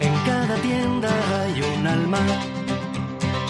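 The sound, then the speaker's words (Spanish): Jingle for the Corazón de Alicante local commerce campaign: loud, upbeat music with a sung melodic vocal line over full instrumental backing, continuous throughout. “¿Esto que escuchamos es la nueva campaña del comercio? Sí, esta es la nueva campaña que desde Corazón de Alicante queremos impulsar.”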